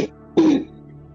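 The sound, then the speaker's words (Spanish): A single throat clearing, one short, rough, husky burst heard alone, with quiet before and after. “¿Puedes aclarar tu garganta, por favor?”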